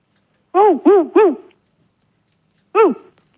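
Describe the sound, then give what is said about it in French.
A dog barks over a telephone line in short, tonal woofs. Three come in quick succession, then one more follows after a pause. “Je crois qu'ils ont un chien, dis-moi. Ouh. Ils ont un chien.”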